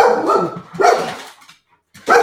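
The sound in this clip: A dog barks a few times after knocking over a stack of drawings, loud sharp barks with a short pause before the last one.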